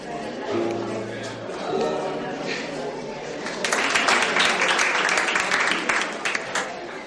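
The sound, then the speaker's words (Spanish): Applause breaks out as musicians finish a dance piece at a ballroom gathering, starting as scattered claps under voices and swelling into a dense, sustained clapping from a crowd in the second half. “los músicos acaban la pieza y todos aplauden.”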